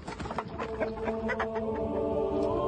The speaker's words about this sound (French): Le coq n'a pas mangé les grains, il est ressorti.